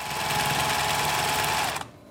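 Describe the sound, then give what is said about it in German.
A sewing machine whirs as workers sew tall, intricate headdresses of colorful ostrich or pheasant feathers for dance guards, a steady, even mechanical hum that runs alone and then cuts off abruptly near the end. “Arbeiterinnen nähen komplizierte, hochgetürmte Kopfputze für Tanzgarden aus bunten Straußenhahnen oder Fasanfedern.”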